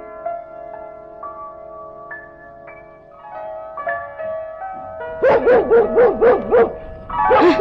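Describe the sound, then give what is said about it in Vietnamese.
A dog barks in a quick, yapping run of sharp, high barks, and after a short pause a further burst follows. Sustained musical notes come before the barks, within a Vietnamese cải lương opera recording. “Đừng có sủa nữa, sủa hoài ta sốt ruột quá rồi đó.”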